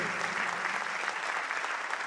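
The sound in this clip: Audience applause for a performer: a warm, continuous crowd clapping, dense and even from start to end, with no break.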